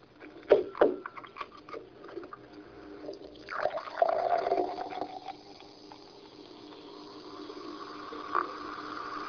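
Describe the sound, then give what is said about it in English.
Fizzy drink being poured into a glass: a few splashy knocks at the start give way to a sustained, soft hissing of bubbles that fades gradually, all faint and without talk. “A nice refreshing drink there on our way, but it made a lovely noise as I poured it. But where is that noise coming from? The hissing sound you heard came from bubbles.”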